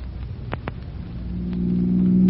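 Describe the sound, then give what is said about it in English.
A car speeds through city streets. Its engine rumble holds steady, then swells into a louder, rising drone toward the end, with a couple of short sharp clicks early on. “I never dreamed to be speeding through the streets in Chief Cody's own car one day.”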